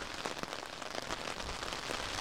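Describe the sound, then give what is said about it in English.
Rain lashing against an umbrella held into the wind on open moorland, a steady, dense, hissing patter with scattered slightly louder drop impacts. The sound is fairly quiet and continuous, with no voices. “I've also got my umbrella up, which I'm doing my best to point into the prevailing wind, which is lashing the rain across the moorland towards my face.”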